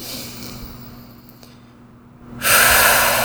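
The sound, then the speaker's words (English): A deep breath drawn in during an EFT tapping session: a loud, airy rush that starts abruptly after a quiet stretch and carries on to the end, with no talk. “Deep breath.”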